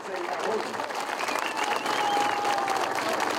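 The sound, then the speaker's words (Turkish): Audience applause welcomes an engineer and a provincial governor onto the stage at a large construction-site ceremony, a steady, dense wash of clapping and crowd noise that swells slightly toward the end. “Mühendis Federico Schroeder'ı ve saygıdeğer eyalet valisini büyük bir alkışla sahneye alıyoruz.”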